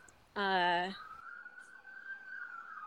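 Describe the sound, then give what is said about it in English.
A siren sounds from a passing emergency vehicle. It holds a steady, high, sustained tone for about two seconds, preceded by a brief, loud, harsh burst. “sorry, my siren's coming.”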